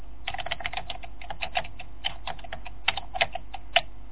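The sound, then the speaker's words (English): Keys clatter on a computer keyboard as a command is entered at a DOS prompt, with many quick, irregular taps in bursts and a few louder strokes near the end, and no voices. “Get into a DOS prompt. Type in DOS prompt, and then what? He's getting it up now.”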